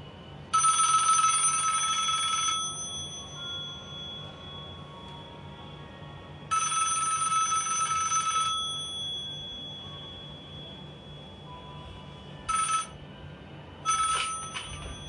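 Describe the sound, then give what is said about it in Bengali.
Telephone ringing at night in a hall room: bright electronic rings in a few bursts, two longer ones, then shorter ones near the end, over a faint low hum. “রাত দুটো নাগাদ হল ঘরে phone বাজছে”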